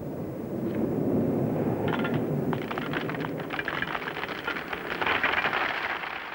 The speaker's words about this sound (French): Prends garde, la grêle approche.